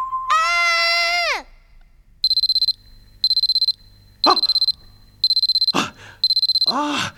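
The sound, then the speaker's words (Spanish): A digital alarm clock beeps in five bursts of rapid, high-pitched pulses, each burst under a second long. Loud harmonic cries come before and between the bursts. “¡El despertador! Uy, parece que me quedé dormido esperando iniciar esta grabación.”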